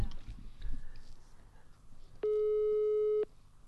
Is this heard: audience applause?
no